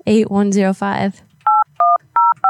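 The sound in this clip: Telephone keypad dialing tones: four short, even electronic beeps in steady rhythm. A loud voiced sound comes just before them.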